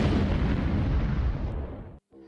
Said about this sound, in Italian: vai ninja, bomba de fumo